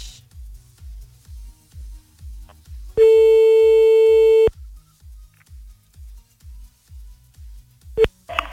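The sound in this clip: A telephone tone as a call is placed: one steady mid-pitched tone lasting about a second and a half over a low, pulsing rhythmic beat, then a brief sharp beep near the end.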